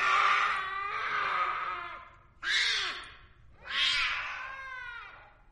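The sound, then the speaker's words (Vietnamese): A black cat lying on a table meows three times, loud and alone: a long drawn-out cry, a shorter yowl, then another long meow. “Con mèo lè lưỡi liếm tay ông Vương rồi kêu lên.”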